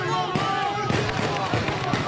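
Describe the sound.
Gunshots fired into the air by mourners during a funeral procession through bombed-out streets of Gaza City; many sharp, irregular cracks in quick succession over a steady crowd murmur with voices.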